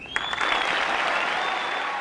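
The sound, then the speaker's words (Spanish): Applause from an audience after a poetry recitation, a dense, steady patter of many hands clapping that stays loud and even for the whole stretch, with no voices over it. “Esos aplausos son para Marosa Di Giorgio, que estaba recitando.”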